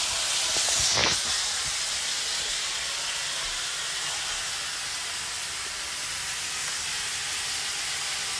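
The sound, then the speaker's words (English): Cabbage stir-frying with soy sauce in a hot pan makes a steady, dense sizzling hiss, with a brief louder burst near the start. “We're gonna keep turning a stir fry. We don't want to burn anything, but we're gonna fry it really quick.”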